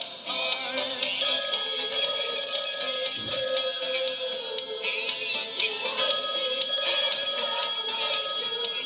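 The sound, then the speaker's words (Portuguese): Telephone ringing on an outgoing call, heard as a bright, steady ringing tone that continues through the whole clip at a fairly even loudness with no talk. “Vamos ligar então. Pring.”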